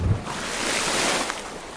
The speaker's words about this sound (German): Da, hört ihr dieses Geknister? Hört ihr, also ich hoffe, ihr könnt das hören, weil das ist genau das Geknister, was man hört, wenn man tauchen geht.